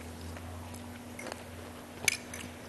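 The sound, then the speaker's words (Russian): Quiet chewing with a couple of crisp crunchy bites as people taste a summer salad with pomegranate. A low steady hum runs underneath. “Спасибо, что научили ваш перервенский салат делать. Да, пробуем? Конечно, да, конечно, попробуйте.”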